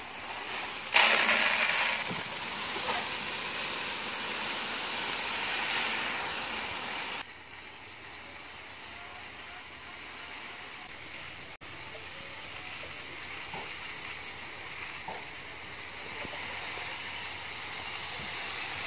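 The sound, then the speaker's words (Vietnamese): Dirty unhusked rice, mixed with stalks and strands, is poured into a bin. A loud, continuous rushing patter lasts about seven seconds, then drops to a softer, steady trickling hiss. “Nhưng mà không sao, bây giờ anh cũng vẫn cho vào thùng luôn. Đây, cho lúa vào.”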